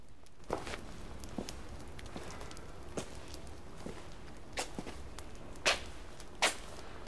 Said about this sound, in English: Robin goes to the top of the steps and stands in front of the castle entrance to address them.